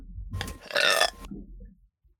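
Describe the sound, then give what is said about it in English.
A single long, loud human burp, croaking and partly tonal, trailing off into a quiet rumble at the end. “I have to burp.”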